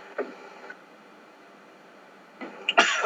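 Coughing from someone who just had something go down the wrong way: one short cough near the start, then a quiet gap, then a cluster of harsher coughs at the end.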